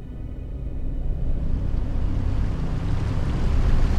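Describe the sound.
A sailing boat moves on the water with a steady low rumbling wash and airy noise that grows slightly louder throughout.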